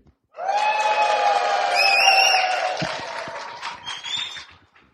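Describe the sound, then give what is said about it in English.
Cheering from a live audience at the 2019 Qatar Process Safety Symposium: many voices whoop together in a sustained, tonal roar for about four and a half seconds, holding steady before gradually thinning and fading out. “you're part of a live podcast today at the 2019 Qatar Process Safety Symposium. Here is what the audience sounds like to you.”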